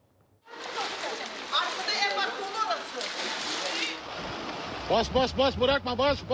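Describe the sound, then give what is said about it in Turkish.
Floodwater sloshes and splashes in the flooded bathroom of a house in Sakarya after heavy rain, a steady loud churning wash that eases off, with a voice heard near the end. “Burası banyomuz abi. Su doldu.”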